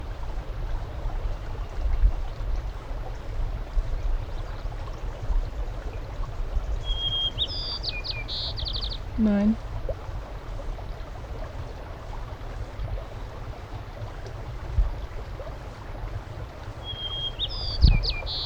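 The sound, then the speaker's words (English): Fox sparrow and white-crowned sparrow songs: two brief, high whistled phrases, well apart, over a steady background noise. “Fox Sparrow A. White Crown Sparrow C.”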